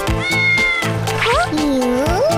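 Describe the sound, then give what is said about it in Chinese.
A beluga whale imitating a cat gives loud, wavering meow-like calls, several tonal cries sliding up and down in pitch in quick succession. “你会学猫叫。”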